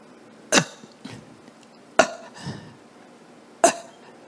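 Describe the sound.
A voice imitates gasping, labored breathing: a few sharp, harsh breaths in an uneven rhythm, each followed by a softer catch of air, with quiet pauses between them.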